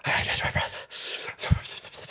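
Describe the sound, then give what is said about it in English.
A man pants heavily while catching his breath, a few rough, breathy gasps in quick succession with brief pauses between them. “I gotta catch my breath, boys.”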